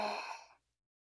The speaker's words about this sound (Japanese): 吸って、止めて、吐いて。